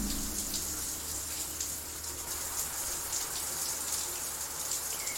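Running water rinsing shampoo out of hair: a steady, loud, even hiss of flowing water that holds throughout with no pauses and no talking.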